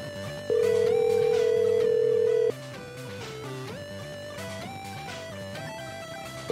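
Ringback tone of an outgoing phone call before voicemail answers. One steady ring of about two seconds is followed by a pause, then a second ring begins at the very end. Music plays underneath throughout.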